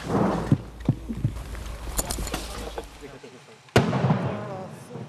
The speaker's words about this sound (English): As if to prove the point. Incoming Russian artillery.